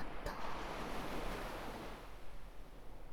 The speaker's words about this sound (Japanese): 私の吐息と波の音に身を委ねて、今は静かに